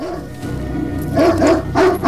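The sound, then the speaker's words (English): A dog barks at night while a patrol with dogs closes in on someone hiding, a few sharp, loud barks in two clustered bursts over a low steady background hum. “The dog's barking makes the rebels shine their torches into the night.”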